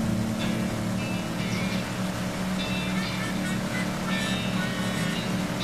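A tank driving in a video game: a continuous low engine drone with a steady humming tone and a rumbling texture, even in loudness throughout, with faint higher noise over it.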